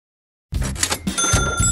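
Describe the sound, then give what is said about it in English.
A cash register cha-ching sound effect: after a short silence it bursts in with bright ringing bell tones over metallic clatter, loud and alone. “By now, I'm sure you recognize that cha-ching sound means this is a commercial for 50-50 Fridays.”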